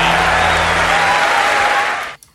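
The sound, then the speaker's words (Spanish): Audience applause after a song at a concert: a loud, thick, continuous roar of clapping that holds steady, then cuts off abruptly near the end. “Bellos aplausos para esta canción”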